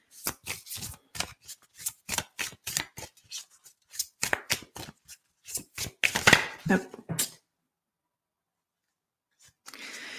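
Tarot cards are shuffled in many quick, crisp riffling bursts with short gaps between them, then the cards go quiet before a faint rustle at the end as one is drawn.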